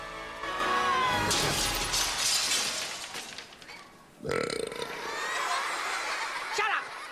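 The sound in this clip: A silver platter shatters over someone's head in a sudden loud breaking crash, set amid a noisy, busy stretch with voices and commotion around it.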